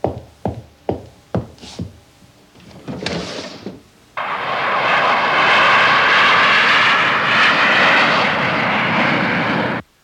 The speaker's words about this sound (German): Ist denn das ein Autobus? Ein Autobus? Nein, das ist ein Flugzeug.